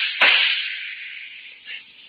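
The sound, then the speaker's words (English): A single sharp gunshot effect in a radio drama cracks out loudly, then trails into a long hissing tail that slowly fades over about two seconds. “Oh, you're a good shot. You got me right between the eyes, but I couldn't feel a thing. I can't let myself be shot now, can I?”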